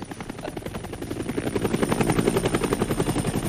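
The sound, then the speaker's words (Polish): A helicopter takes off from a launch site, its rapid rhythmic blade chop swelling steadily louder over the first half and then holding strong and even as many pulses beat on. “Z miejsca startu zawsze startował pierwszy śmigłowiec papieski.”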